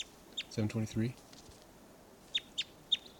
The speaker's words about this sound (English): Both birds.